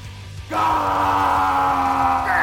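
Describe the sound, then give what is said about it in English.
A man's loud, raw scream of rage, as if striking with an axe, bursts out after half a second of quiet and is held at a steady, strained pitch to the end. “as this my axe thuds into the deep, deep recesses of the plant, I let out a scream.”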